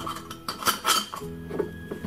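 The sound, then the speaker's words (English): Lid being put on a glass jar half filled with milk: a few sharp clinks and light clattering knocks of lid against glass, fairly faint and irregular. “Pour your milk in. However high you pour it, don't pour it any more than about halfway. Just put on the lid”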